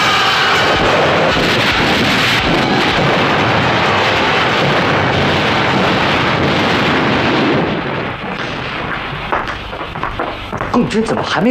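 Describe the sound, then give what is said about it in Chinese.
Artillery fire and explosions during a battle as infantry charge: a dense, continuous roar of blasts and rumble stays loud throughout, thinning slightly near the end where voices briefly come through. “我们已经向炮兵延伸射击了，步兵开始冲锋了”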